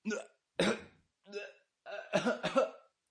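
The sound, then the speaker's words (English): Strangled choking noises from a man's throat: a few short, gasping, hiccup-like bursts separated by silence, ending in a longer, rougher run of catches. “Joseph made a...choking noise in his throat and got up”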